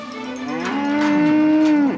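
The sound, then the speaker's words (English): A cow lets out a long, low, steady moo at a livestock auction market on a cold, foggy morning. The call is loud and sustained for about two seconds, then drops off at the end. “It's not real comfortable out here for these cows on a cold, foggy morning in Galt, California, at the Cattlemen's Livestock Market.”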